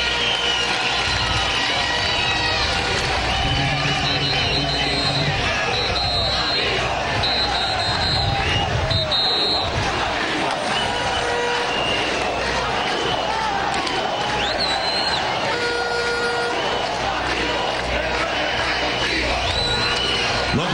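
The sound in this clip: Crowd of a May Day 2015 march in Venezuela arriving at a rally, cheering: a loud, unbroken din of many voices and cheers that fills the whole clip without pause.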